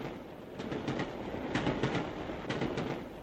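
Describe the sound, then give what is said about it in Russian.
A passenger train pulling away from a station, with a steady low rumble broken by rhythmic clicks of wheels over rail joints, fairly faint and with no voices. “поезд набрал скорость”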